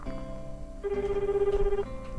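Ringback tone of an outgoing phone call, one steady electronic tone lasting about a second that rises clearly above a constant humming background, with no voices.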